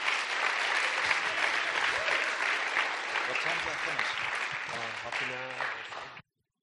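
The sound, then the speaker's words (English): Church audience applause welcoming a guest speaker: a dense, steady clapping for about six seconds with voices mixed in toward the end, then it stops abruptly. “Let's give Craig a warm Oceanside welcome.”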